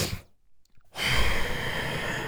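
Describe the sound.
A voice imitates a monster exhaling black smoke: a short breathy intake, a brief silence, then a long, steady, rushing exhale that holds at full strength until the end.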